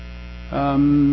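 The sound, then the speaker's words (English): Low electrical humming comes from a linear accelerator, an Alvarez-structure machine built from three vacuum tanks and running since about 1972. The buzzing drone swells louder halfway through into a stronger, steady tone, with no talk. “This is the LINAC2. This is an Alvarez structure. This machine is in operation since 72 or something like that.”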